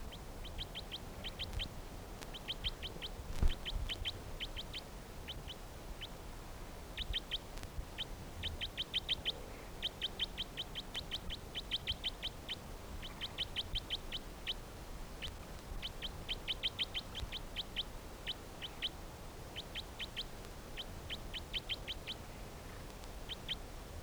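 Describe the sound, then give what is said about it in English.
Bird calls ring out as many short, high chirps in quick bursts, repeating with brief pauses over a steady low background hiss. “Recording the bird 321 again.”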